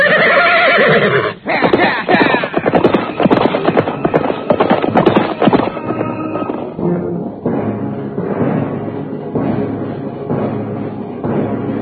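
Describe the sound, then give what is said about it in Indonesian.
A horse neighs loudly near a forest edge as a rider mounts, a shrill whinny followed by hoof clip-clops and dull thumps. “Dan setelah itu dia segera melompat ke atas punggung kudanya.”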